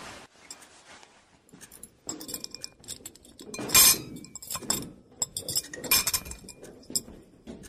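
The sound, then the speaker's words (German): Dishes, cutlery and glasses clink and clatter as they are cleared from a wobbling table, a run of many irregular rattles and chinks with one loud, busy burst near the middle before the clatter continues in scattered clusters. “Wir sollten den Tisch umdrehen. Hilf mir, das Geschirr abzuräumen.”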